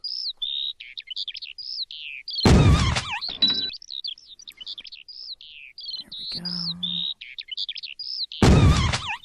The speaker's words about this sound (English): Alright, so there are birds. You shoot them when they're in the center of the screen